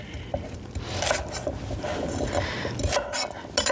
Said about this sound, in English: Just give them a quick peel. We'll just chop the ends off.